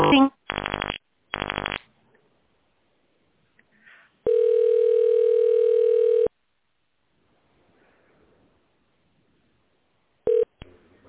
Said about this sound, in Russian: Пожалуйста, наберите в тональном режиме.